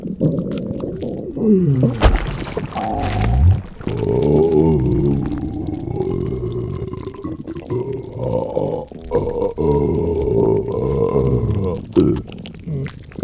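A stomach rumbles and gurgles in long, wobbling, low growls that swell and fade unevenly for several seconds, with no voices.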